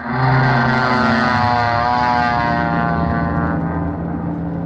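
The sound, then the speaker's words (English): A propeller airplane takes off with its engine droning loudly and steadily in a rich buzzing hum, which thins slightly toward the end. “Let's see, this must be the plane. The instructor sitting in the front seat ready to go. I'll just step up here on the wing and get in the seat behind him. Okay, buddy, I'm all set. Let's take off.”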